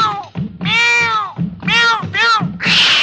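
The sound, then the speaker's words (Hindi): A cat meows several times in quick succession, loud, bright calls that bend up and down in pitch, the last one breaking into a harsh, hissing cry. “चिट्ठी में से निकली बिल्ली, चिट्ठी में से निकली बिल्ली”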